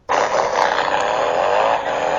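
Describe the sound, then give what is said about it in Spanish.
Motorcycles passing produce a loud, continuous engine roar with a dense, rushing hiss that holds at nearly the same level from start to finish. The sound begins abruptly, with no separate pass-by peaks. “Ahí, esas motos.”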